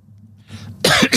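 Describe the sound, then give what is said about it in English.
Coughing from a man: a soft throat sound, then two harsh, loud coughs in quick succession at the end. “excuse me, I'm coughing now, and I'm not editing this out, so you're just going to have to live with that.”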